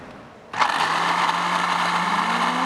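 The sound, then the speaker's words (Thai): A blender switches on abruptly to blend yogurt with beans, then holds a loud, steady whirring grind of motor and blades that runs on without pause. “คราวนี้ปิดฝาแล้วปั่นเลยครับง่ายไหมครับนะ”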